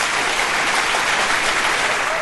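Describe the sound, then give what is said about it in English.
A big round of applause for performers: loud, dense clapping continues evenly throughout the short stretch. “Let's give all our performers a Everybody. Big round of applause.”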